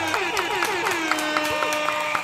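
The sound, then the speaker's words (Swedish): Recorded applause effect with a little horn toot added: sparse, evenly spaced claps ring over sustained tonal horn notes that hold through the whole short clip at moderate loudness. “En applåd och en liten tuta på det hörni.”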